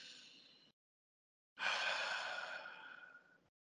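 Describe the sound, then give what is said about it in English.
A slow, deliberate breath taken during meditation practice: a soft, breathy first breath, a brief silence, then a longer and louder airy exhale of about two seconds that gradually fades out. “So intentionally, okay, that breath wasn't very good. This breath that I'm experiencing right now is now.”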